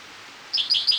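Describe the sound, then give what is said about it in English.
A spotted towhee sings along a creek: a few bright, high chirping notes begin about halfway through and repeat in a quick, uneven pattern, with no voices. “for spotted towhee number one”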